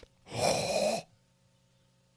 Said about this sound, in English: Look how much oxygen I'm getting. You should breathe through your mouth.